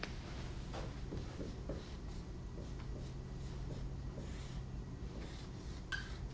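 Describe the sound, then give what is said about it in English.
A diagram is drawn on a board: faint scratchy writing strokes come in short bursts over a quiet, steady background hiss. “I'm drawing our old friend the XYZ diagram.”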